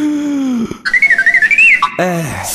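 A person whistles an imitation of a robot's beeps, a loud, high, warbling trill of rapid pulses, with brief voiced sounds just before and after it.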